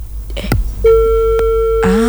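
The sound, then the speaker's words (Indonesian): A telephone line tone sounds after a call disconnects: one steady, mid-pitched electronic hum holds for about a second. A short voice-like sound comes before it, and a voice follows right after. “Terputus sambungan teleponnya ternyata.”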